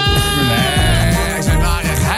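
Goats bleat in a few wavering, quavering cries that rise and fall in pitch, loud and close together, with no talk over them.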